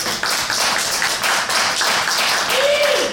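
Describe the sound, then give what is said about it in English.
Polite audience applause at a live comedy pitch show: steady, moderate clapping, with a single voice letting out a whoop near the end. “Oh, there was a very polite audience. They had almost the equal amount. But there was amount, a woo. Right? The woo sealed it.”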